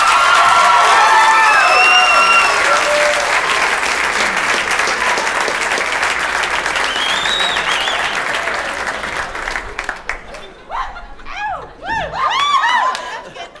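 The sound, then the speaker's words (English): Audience applause and cheering greet a comedian's entrance at a live show: a loud, dense roar of clapping with whistles and whoops that later thins into scattered claps and shouts before swelling briefly again. “Ladies and gentlemen, make some noise for Bo Burnham.”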